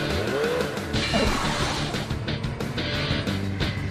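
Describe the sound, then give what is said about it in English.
Motorcycle engine roaring as the bike is started and ridden around laps, a loud continuous drone with brief revving whines that rise and fall. “So let's put our kickstand up, start the bike. Go for it. Gas, gas, gas, gas.”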